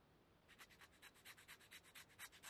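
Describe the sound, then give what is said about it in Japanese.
A file rasps in many quick, even back-and-forth strokes as someone files, a faint scratchy rubbing with a steady rhythm and no voices. “じゃあ、ヤスリがけも。”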